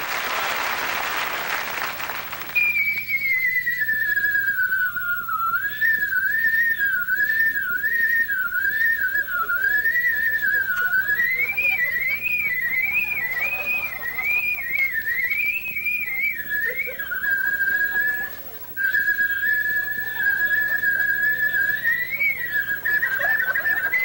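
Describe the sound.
A man whistles a medley in a clear, high, continuous melody that wavers and trills for about twenty seconds. A short burst of applause comes just before the tune, and the whistling goes on alone with only a brief pause near the end.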